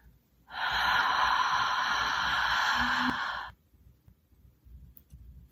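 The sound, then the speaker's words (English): A single long, deep breath during a breathing exercise, loud and airy, held steady for about three seconds, with the exhalation made through the mouth. “Another breath in, as deep as you can, and an exhalation when you're ready through your mouth.”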